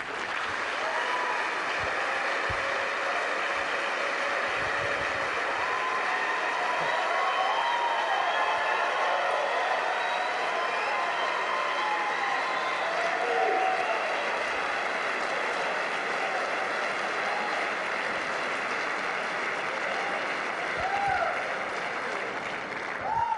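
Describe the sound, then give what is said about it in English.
Sustained applause from an audience welcoming participants to the stage at a debate on predestination versus free will, a steady, dense clapping that holds at an even loudness throughout, with a slight swell near the end. “So if you guys wouldn't mind putting your hands together, welcome to the stage our participants for tonight.”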